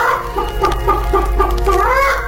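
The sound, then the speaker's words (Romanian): A hen clucks in a series of short, rhythmic clucks over a steady low hum, ending in a longer, drawn-out call. “Baba avea o găină”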